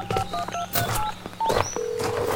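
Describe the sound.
Keypad tones from a cell phone being dialed: a quick series of short, bright beeps at shifting pitches over a steady background noise.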